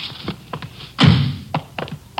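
A door being opened gives one heavy, resonant thud, surrounded by a few lighter knocks and clicks from the handle and frame.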